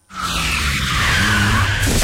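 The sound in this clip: Car tyres with worn tread skid in a loud, sustained screech that starts abruptly and holds steady for about two seconds, with no voices.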